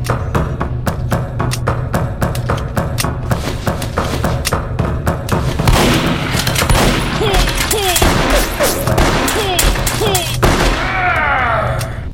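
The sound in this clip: Machine gun fire from a video game rattles in rapid, loud bursts that run almost without pause for the whole stretch, with a dense clatter of shots and thuds.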